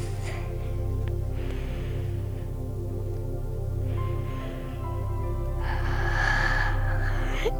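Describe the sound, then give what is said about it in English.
A deep breath is drawn in during a children's meditation, heard as a few soft, airy rushes of breathing over a steady low drone. “Take a big breath.”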